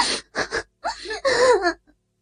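Loud crying of a woman: a few short, gasping sobs followed by a longer, wavering wail that breaks off into silence.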